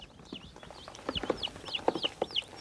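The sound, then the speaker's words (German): A turkey hen and chickens in a makeshift coop cluck softly in low, irregular bursts, mixed with repeated high, thin peeping calls that grow more frequent toward the end. “Weil sie nicht genug brutwillige Hühner hatte, ist auch noch eine Putenhenne in den Behelfsstall eingezogen.”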